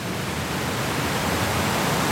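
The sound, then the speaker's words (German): Powerful roar of High Force waterfall in England, where water drops about 21 meters straight down, heard as a dense, unbroken rushing noise that stays loud and even throughout, with no voices. “Das kräftige Rauschen kündigt ihn an, den Wasserfall High Force”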